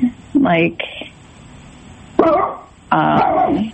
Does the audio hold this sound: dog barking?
yes